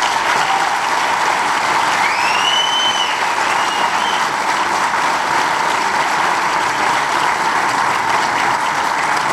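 Dense, steady crowd applause fills a university student association's inauguration ceremony, a loud, even wash of many hands clapping without pause from start to finish.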